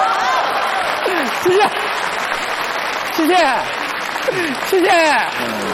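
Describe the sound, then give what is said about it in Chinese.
Audience applause after a stage performance, a dense, steady patter of clapping running beneath people talking throughout. “我看还有鼓掌的 哎大伙儿看 刚才还有叫好的”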